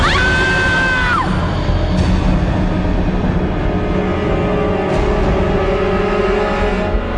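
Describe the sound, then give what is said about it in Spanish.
A harrowing scream bursts out from deep within the body. It is a single, shrill, strained cry lasting about a second that drops sharply in pitch at its end, followed by a rough, noisy rumble. “de pronto un bozarrón de lo más profundo de su cuerpo afloró como un grito desgarrador.”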